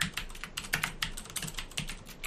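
Typing on a computer keyboard to sign in to a game, a rapid, uneven patter of many crisp key clicks heard alone.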